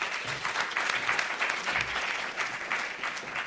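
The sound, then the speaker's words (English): Audience applause welcoming a speaker to the stage at a creative industries talk, a steady wash of many hands clapping at an even level for the whole stretch, with no voices. “So at this point, I'd like you to put your hands together for a warm welcome to Lorena.”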